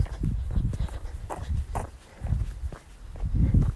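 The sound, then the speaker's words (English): Footsteps of a group jogging at an easy pace in an exercise session: a steady, rhythmic thudding of many feet, fairly loud throughout with no talk. “We're going to just go into a 5 minute nice easy jog.”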